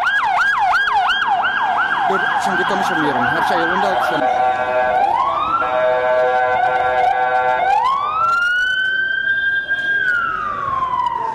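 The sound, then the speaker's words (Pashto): Ambulance and police car sirens of many vehicles heading to an explosion site: loud, continuous wailing that sweeps rapidly up and down, then shifts to long steady tones and slow rising wails, with road traffic beneath. “سیمې ته امبولانسونه او د پولیسو ګڼ موټر ور روان وو”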